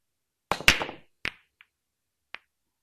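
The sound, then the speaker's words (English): Pool balls clack together: a quick cluster of sharp knocks comes first, then a few separate, fainter clicks spaced apart, with no voices. “Pool balls is correct. Pool or billiards, either one.”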